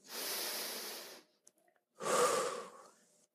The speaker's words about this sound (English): please pause. Take a deep breath with me.